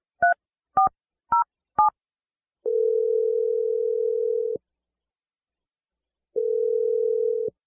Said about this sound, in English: So I'm just going to dial his number if you're ready.